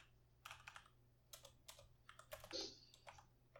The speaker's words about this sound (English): So when I go to the Microsoft Store on my Windows 10 PC and type in Crackdown 3.